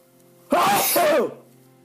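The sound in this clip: A single loud sneeze bursts out in two quick, voiced parts, sharp at the start and then fading. No one talks around it.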